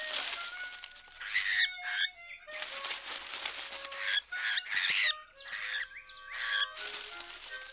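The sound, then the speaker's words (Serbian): A magpie searching through bushes gives a run of harsh squawks and bright chirps in uneven bursts with short gaps, clear and moderately loud, with no talk. “Svraka traži nešto po žbunju i šuška.”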